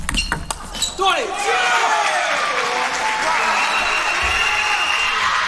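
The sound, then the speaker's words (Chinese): Table tennis ball bouncing during a reverse-side serve: a few sharp, light taps near the start, then a steady wash of crowd noise with voices over it. “换了一个逆侧的发球”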